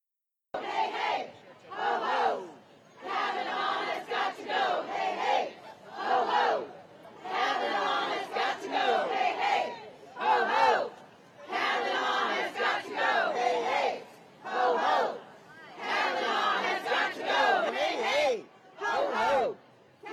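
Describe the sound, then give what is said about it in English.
A protest crowd in Washington, D.C. chants in loud, rhythmic bursts of many voices, the shouted phrases rising and falling in a steady repeating cadence with short gaps between them. “And actually, let's get a taste of the protests. We have some videos for our TV audience and also our radio audience will hear some of the sounds and sights of what those protests were like.”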